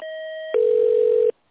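Telephone line tone as a business call is transferred: a brief, higher multi-tone sound gives way to a single steady tone, which stops abruptly after under a second.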